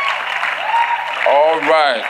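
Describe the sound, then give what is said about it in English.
Audience applause welcoming visiting pastors at a church gathering, a continuous bed of clapping with a voice sounding over it toward the end. “Can you, please, pastors, come. Put your hands together. Let's welcome them.”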